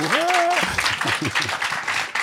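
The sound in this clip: Audience applause at a live show, a dense patter of many hands clapping that follows a brief voice at the start, with people talking over it.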